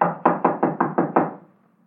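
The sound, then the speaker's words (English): Knocking on a locked door: seven firm, evenly spaced knocks in a quick run, each sharp and moderately loud, then a brief fading tail into quiet. “The door's locked, all right. Well, let's try knocking.”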